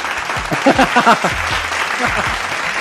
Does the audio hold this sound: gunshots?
no